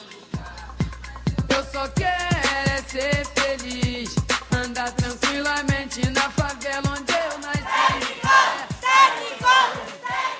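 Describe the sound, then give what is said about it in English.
Crowd at a lucha libre wrestling match in Mexico chanting loudly in rhythm, with many voices rising and falling over a steady run of sharp, evenly spaced beats that continue throughout. “That's the sound of lucha libre, or wrestling, which is a national pastime in Mexico.”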